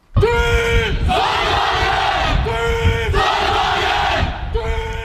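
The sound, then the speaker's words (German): A group of students from a solar car racing team shouts its battle cry at a solar car race in Belgium: loud unison voices chanting in a few strong, rhythmic bursts. “So hört sich der Schlachtruf des Team Sonnenwagen Aachen an.”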